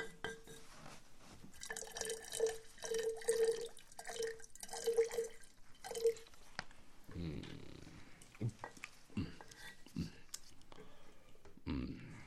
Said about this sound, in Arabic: صب لنا أيها الخادم من هذا اللبن لنشرب.